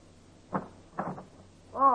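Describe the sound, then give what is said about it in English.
Knocking on a janitor's door in an apartment-house basement: a few soft, muffled knocks in two short groups, with quiet gaps between them. “when you're back in the basement knocking on the janitor's door”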